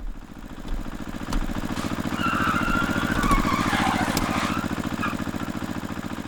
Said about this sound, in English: I'm going to keep driving now, if that's okay with everyone.